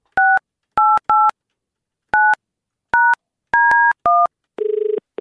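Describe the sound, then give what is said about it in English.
Telephone keypad tones as a number is dialled to call a parent: a series of short, bright two-tone beeps in an uneven rhythm, followed by a buzzier, lower tone at the end. “Anyway, let's dial Mum up.”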